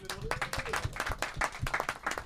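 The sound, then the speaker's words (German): An audience at a German comedy show claps for latecomers arriving at their seats. Distinct individual claps come in an uneven, fairly sparse patter, and a voice speaks briefly near the start. “Applaus für die später ankommen.”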